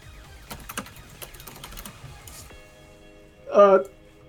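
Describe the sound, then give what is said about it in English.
Quick, uneven clatter of keystrokes on a computer keyboard as something is typed in. The burst lasts a couple of seconds and is followed by a brief voice. “Here, I'll type it in.”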